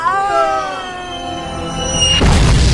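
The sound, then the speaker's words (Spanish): A mortar shell explodes during a frantic beach escape under fire in a comedic action scene. A long tone falls gradually in pitch, then a loud, rough blast bursts out and sustains to the end. “¡Fuego de morteros! ¡Cuidado!”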